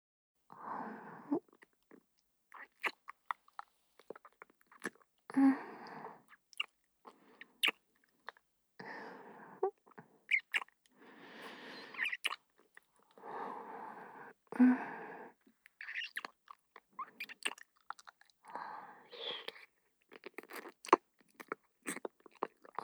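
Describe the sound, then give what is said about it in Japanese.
Soft wet kissing sounds, many lip smacks coming in irregular bursts with short quiet gaps between them, faint overall. “それでは、まずは接吻から。失礼いたします。”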